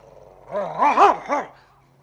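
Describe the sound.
A dog growls and barks in a few short, harmonic bursts that rise and fall in pitch, moderately loud and heard alone without talk.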